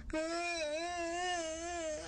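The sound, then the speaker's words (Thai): A voice imitates a little rabbit sobbing and crying loudly: one sustained, wavering wail with a quivering, trembling pitch that holds steady for about two seconds. “ไม่นานเสียงสะอึกสะอื้นพร้อมกับน้ำตาของกระต่ายน้อยก็ไหลออกมากระต่ายน้อยเริ่มร้องไห้เสียงดัง”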